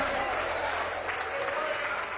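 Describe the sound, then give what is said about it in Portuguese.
A church audience gives a round of applause in glory to God, a steady wash of clapping with low sustained instrumental tones underneath. “Mais forte aplauso para o Senhor. Palmas de glória a Deus, igreja.”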